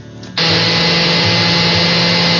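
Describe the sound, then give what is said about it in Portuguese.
A kitchen blender switches on and runs at full speed, blending corn, cream cheese, cream and chicken cooking water into a creamy mixture. After a brief quieter moment, a loud, steady, high whirring roar continues to the end. “Vamos agora no liquidificador?”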